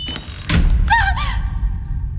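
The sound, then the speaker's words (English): A door slams shut at the entrance of a haunted house with a single heavy, low thud, followed by a brief high, wavering squeal that fades into a steady low hum. “as we walked in, and the door slammed shut behind us”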